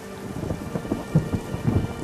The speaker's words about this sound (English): But it is this rain that makes the Western Ghats what it is.